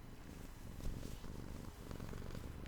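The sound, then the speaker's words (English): A cat purring on someone's lap: a soft, steady low rumble that runs unbroken from start to finish, faint and alone with no voices. “oh, I got my cat on my lap. I don't know if you can hear her purring.”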